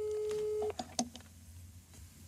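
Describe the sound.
A faint telephone ringback tone heard while placing a call. A steady low tone stops abruptly and is followed by a few soft clicks and knocks as the line is picked up.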